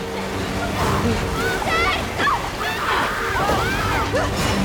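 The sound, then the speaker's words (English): Water gushes from a giant faucet into a filling tank, a continuous rushing wash with splashing and sloshing, while voices shout over it. “The giant faucet continues spewing more and more water into the tank.”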